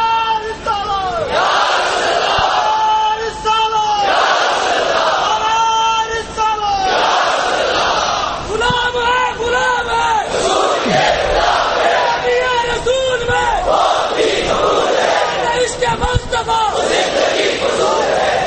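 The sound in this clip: A crowd chants religious slogans in unison, loud shouted phrases that rise and break off again in repeated bursts all the way through.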